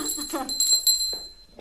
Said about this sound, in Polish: Mały, zadzwoń na Michała.